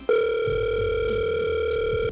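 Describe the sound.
A steady telephone dial tone holds for about two seconds: one continuous, loud electronic tone with bright overtones, heard alone without voices.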